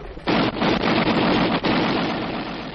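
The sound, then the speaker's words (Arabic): Gunfire in a radio drama about a hero clearing a minefield for advancing troops. Dense, rapid bursts of shots merge into a continuous loud rattle, broken by a couple of brief lulls. “وهو يغوص في مجال الألغام ويفتح الثغرة لكي تندفع القوات إلى الأمام، سمع صوت طلقات غادرة جاءت نحو البطل زرد.”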